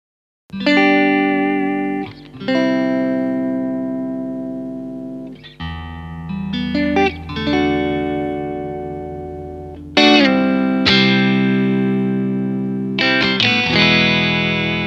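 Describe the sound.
Electric guitar on the bridge pickup with the mini toggle down: several strummed chords left to ring and sustain, with a warm yet glassy tone and a touch of grit, played alone without talk.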